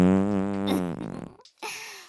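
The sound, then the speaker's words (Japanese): A fart: a low, buzzing tone with a strong pitched flutter lasting about a second, then a short gap and a breathy, hissing tail. “私の貴重なおならなのですから、嗅ぎ漏らしは許しませんわよ。”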